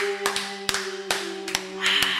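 A studio audience clapping, heard as a few scattered, sharp claps rather than full applause, spread unevenly over a steady low hum.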